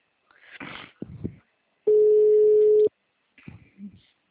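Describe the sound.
A single steady ringback tone lasting about a second, heard on a phone line while a call waits to be answered, with brief speech sounds just before and after it.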